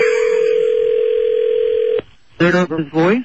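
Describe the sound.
Telephone dial tone heard while placing a call: a loud, steady, unbroken tone for about two seconds stops abruptly, followed by a short pause and then a voice speaking.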